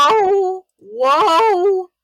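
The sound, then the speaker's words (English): A pet cat gives two drawn-out, mournful meows, clear and fairly loud, with a brief silence between them. The second meow is longer and wavering. “My cat Thomas is a very dapper boy. Mournfully.”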